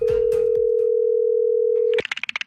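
A telephone line sounds as a prank call is placed: a steady dial tone holds for about two seconds, then gives way to a quick run of higher pulsing tones.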